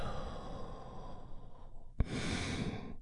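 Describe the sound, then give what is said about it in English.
A soft, deep breath is drawn in and then slowly released in a long, airy exhale, faint and breathy throughout. “We are going to start the moment by taking a big, deep healing breath right now. Here we go. And release.”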